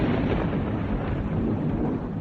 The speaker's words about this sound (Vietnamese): Một ánh chớp chói lòe xé tan màn đêm, kèm theo là tiếng sét ầm ĩ đánh xuống.